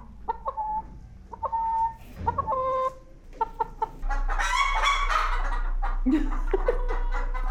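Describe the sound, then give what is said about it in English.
Hens cluck in a backyard paddock that holds a flock of about 40 or 50 laying birds: several short, clipped clucks come first, then a louder, busier stretch of overlapping flock calls. “So I have about 40 or 50 that are in the paddock at the back garden, they lay eggs, and we sell their eggs at the, you know, farm gate.”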